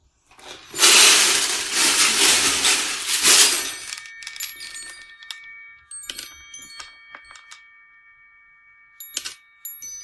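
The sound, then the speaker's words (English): A childhood toy sends small balls cascading out onto a magnetized strip, then bit by bit onto a metal chime. A loud rushing clatter comes first, followed by scattered bright ringing chime strikes that thin out. “All these little balls come cascading out of it, and then like hold on to a magnetized strip, and then bit by bit kind of drop down onto this chime.”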